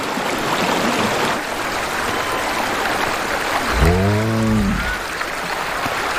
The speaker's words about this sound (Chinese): 融水让冰盖下方的河流水位上涨